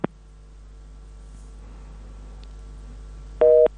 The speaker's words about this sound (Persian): خب متاسفم که تماس ایشوننده ما قطع شده.